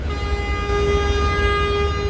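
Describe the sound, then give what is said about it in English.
A late-night subway vacuum train rolls through a station, giving off a loud, sustained mechanical drone: a steady tonal whine layered over a deep, low rumble, unchanging throughout. “As we pass through each station, you can see the late-night passengers go from hope that their train has arrived to disappointment, to confusion over what this big, stinky train is doing.”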